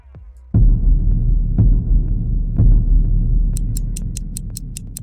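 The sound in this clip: Quick, regular clock-like ticks enter near the end over a deep, throbbing low pulse with a few soft thuds. They suggest a ticking clock being started, sounding crisp and bright above the steady rumbling beat.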